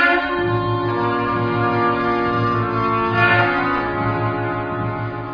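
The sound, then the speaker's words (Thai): A signal horn blown to start a journey in a biblical scene: a sustained, loud, brassy tone held for several seconds over a pulsing low undertone. “นั่นเสียงแตรสัญญาณให้เราเริ่มออกเดินทาง”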